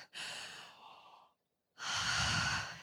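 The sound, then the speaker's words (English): A crowd at a conference takes one big deep breath together: a steady airy inhale, a brief silence, then a fuller, louder exhale. “let's just like take a second and be like, big deep breath, everyone.”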